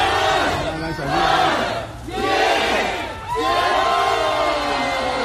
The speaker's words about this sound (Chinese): 0点整，在小区门内冒着大雨等待了许久的居民们欢呼着倒计时，小区大门打开，欢笑的人群涌了出来。